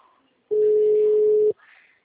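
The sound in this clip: A telephone dial tone sounds while a call to a client is placed. One steady, loud, even tone holds for about a second between quieter background sounds.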